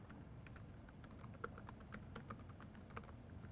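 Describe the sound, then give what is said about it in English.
Soft typing on a computer keyboard as login credentials are entered: a quiet, irregular run of key clicks with a few sharper taps standing out. “So I will type”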